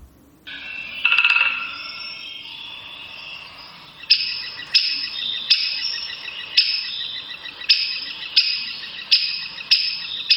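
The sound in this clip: A woodpecker's warning call: a series of sharp, high, clipped 'kix' notes repeating at a fairly regular pace over a soft hiss, preceded by a brief brighter burst of calling.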